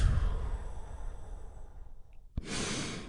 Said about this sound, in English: Join me in taking a big, deep, healing breath right now. Here we go. And relax.